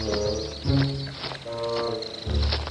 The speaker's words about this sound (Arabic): ياه، طيور مزعجة!